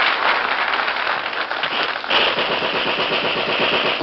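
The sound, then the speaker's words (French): Dense, loud applause fills an empty concert hall: a continuous crackling roar of many hands clapping that never pauses across the whole clip. “On applaudissait et pourtant il n'y avait personne dans la salle.”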